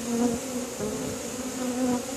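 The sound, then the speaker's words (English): Bees buzz in a steady, dense drone, like those kept in northern Wisconsin beekeeping, with a low hum that wavers slightly in pitch and carries on without a break. “You could thank the pollinators. Beekeeping has become a popular trend in northern Wisconsin, but it comes with challenges.”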